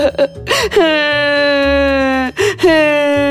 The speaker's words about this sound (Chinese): 秃角呢就哭了起来。